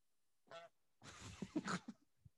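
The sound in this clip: Goose honking in several harsh, nasal calls: a short opening burst, then a busier run of overlapping honks and one last brief call. The calls are fairly faint and there is no talk.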